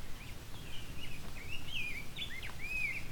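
Faint, high whistled calls of a grosbeak, a series of short slurred chirps spaced irregularly over a steady low background hiss.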